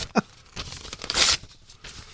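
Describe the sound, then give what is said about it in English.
Tearing of something being ripped up: a few rough, crackling rips, a short sharp one at the start and a louder, longer tear near the middle, with quieter rustling between and no talk. “And I'm not done ripping this up yet.”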